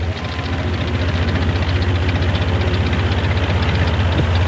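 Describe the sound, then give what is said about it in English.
A bulldozer engine idles at a naval base with sailors around it, a loud, steady, knocking chug with a fast, even pulse that holds throughout, and no voices. “Now, at the base, Tex starts up a bulldozer surrounded by sailors.”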